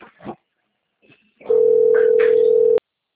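A telephone rings for an incoming call, sounding as one steady electronic tone held for just over a second, preceded by a few brief faint sounds.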